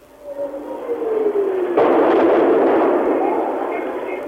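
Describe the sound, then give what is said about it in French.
A shell whistles overhead and falls in pitch, then a heavy explosion bursts into a broad, rumbling roar that slowly fades, during shelling of the capital's rooftops in Phnom Penh in April 1975. “un sifflement au-dessus des toits blancs de la ville, une double explosion en plein cœur de la capitale”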